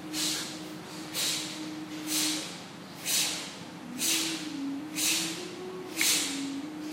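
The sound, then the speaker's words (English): Forceful breathing exhales pumping the belly inward during a breathwork exercise: seven breathy bursts in an even rhythm, about one per second, over a steady low drone. “Strong exhale, pump the belly in. Don't think of the inhale.”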